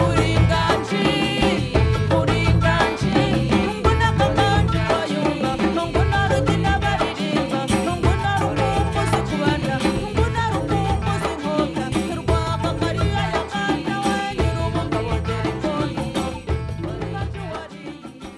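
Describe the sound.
Loud, continuous ensemble music with dense, driving percussion and layered melodic parts that hold a steady rhythm throughout.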